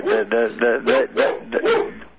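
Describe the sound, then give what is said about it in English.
A dog barks in a quick, evenly spaced run of several short, harmonic barks, each fairly loud and close together, with the last one trailing off slightly quieter. “What is that, a laugh or a barking dog? That's my dog.”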